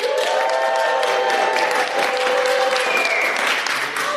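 Live audience at a camp gathering clapping and cheering, a dense, steady wash of applause with whoops that runs throughout and eases slightly at the very end.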